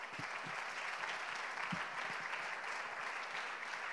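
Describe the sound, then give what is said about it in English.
Audience applause welcoming a guest speaker at a symposium on the Apostles' Doctrine: steady, continuous clapping from a crowd, even in loudness throughout, with no voices over it. “How about giving him a good hand today, would you?”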